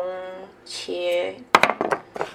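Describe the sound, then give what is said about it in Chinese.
Crab sticks tipped into beaten egg in a bowl: a few quick clattering knocks and clinks come after a stretch of talk. “好，蟹肉棒就整个倒进去蛋里面”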